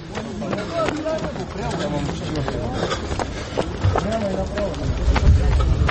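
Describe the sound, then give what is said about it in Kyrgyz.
Running footsteps of candidates for police officer posts racing over three kilometres: a steady run of many quick, rhythmic footfalls beneath ongoing talk. “Үч чакырымга чуркаган майы кызматкерлигине талапкерлер чуркап бара жатышат.”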